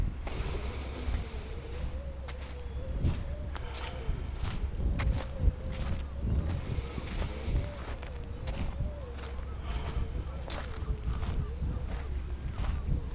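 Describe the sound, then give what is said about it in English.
Footsteps squelch across slimy, sludgy, bright green seaweed on a salty seashore, a steady run of many soft, wet steps over a constant low background rush. “I'm walking on this slimy, sludgy, bright green seaweed.”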